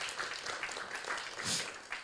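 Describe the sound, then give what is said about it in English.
Audience applause fills an event, a faint, steady patter of many hands clapping that continues without a clear break. “one more round of applause for Malcolm and Linda”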